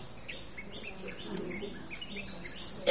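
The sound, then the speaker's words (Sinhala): Parrots screech in a steady, overlapping chatter of many short, high chirps and calls. The calls stay fairly faint throughout, with no single call standing out above the rest. “ගොඩක් සද්ද ඇහෙනවා ඒ මොක්කද ඒ කය ගහන්නේ? ගිරව් කය ගහනවා.”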